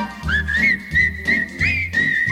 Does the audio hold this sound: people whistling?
yes